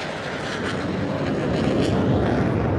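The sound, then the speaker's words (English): Loud, steady jet roar from an F-35C, the carrier-based, long-range stealth strike fighter with the largest wingspan of the F-35 variants, flying; a dense, unbroken rushing noise holds throughout with no voices. “the largest wingspan of all the F-35 variants we're about to see, the F-35C. It is the first and world's only long-range stealth strike fighter”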